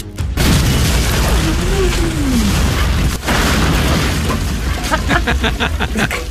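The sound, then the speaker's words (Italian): A hand grenade explosion: a loud booming blast followed by sustained rumbling noise, a second sharp burst partway through, and a rapid run of crackling pulses near the end. “Poi una bomba a mano in tasca, ma anche lì... Per il Vietnam!”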